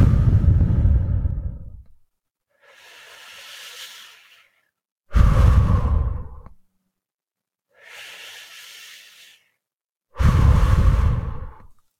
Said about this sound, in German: Jetzt atme tief ein und atme fast ohne Ton mit dem Laut Hu aus. Hu.